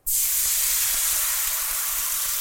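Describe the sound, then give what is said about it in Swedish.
Loud, steady sizzling hiss as water is poured into a hot frying pan to deglaze it, bursting in abruptly and holding continuously without letting up. “jag hällde vatten i den varma stekpannan.”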